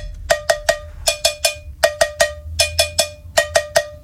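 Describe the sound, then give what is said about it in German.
Cowbell played as an instrument in a pop song gives many bright, ringing metallic clanks struck in a steady rhythm of short repeated runs, loud and with no voices. “Habt ihr schon mal ein Instrument namens Kuhglocke gehört? Nein, ich auch nicht. So klingt's.”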